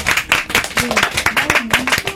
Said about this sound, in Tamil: கைதடிலா, எல்லாரும் கைதடி.